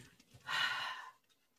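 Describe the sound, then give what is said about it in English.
A single deep exhale, breathed out while a tape measure is drawn around the waist. The long, airy breath rises, holds steady for about half a second, then fades, with no talk over it. “Then you exhale deeply because you want a smallest measurement possible.”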